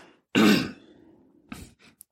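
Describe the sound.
A person clears their throat once with a harsh, loud burst, followed by a few faint rasping sounds and a tiny click.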